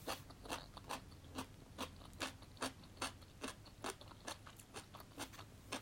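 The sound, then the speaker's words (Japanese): Crisp bites into crunchy daikon radish, many sharp cracking crunches in a quick, steady rhythm, each a short bright snap over a quiet background, with no voices. “ちょっとパリパリ大根から食べよう一発目からパリパリ大根食べるっていうね。”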